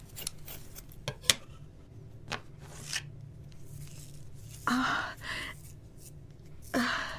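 Crisp scissor snips as hair is cut off in a hotel room: a few sharp, irregularly spaced cuts, with a couple of louder breathy rustles later on.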